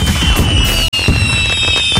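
Canada Day fireworks in Belleville: a loud, dense barrage of crackling pops and bangs that roars continuously, with a single momentary drop near the middle.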